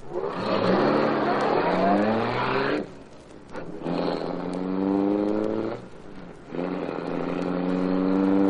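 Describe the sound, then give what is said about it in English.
A roadster's engine pulls out and accelerates, its roar climbing in pitch through three loud surges separated by brief dips, with no talk. “Yes, roadster pulling out.”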